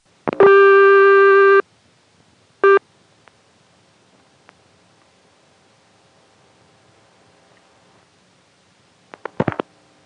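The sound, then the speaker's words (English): Telephone line sounds from a call dialed through an all-relay telephone office. A buzzy harmonic tone lasts over a second, then a brief second burst, a long near-silent stretch, and a tight cluster of sharp clicks near the end. “If you dial it more normally, it sounds like this. This time I'll dial the last digit 1. Actually, I'll flash it.”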